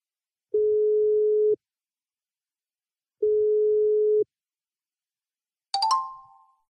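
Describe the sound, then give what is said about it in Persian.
A telephone rings for an incoming call with two steady, mid-pitched tones about a second long, separated by a pause. A bright, chime-like ding follows and rings out and fades. “زنگ داره میخوره، ببینیم که”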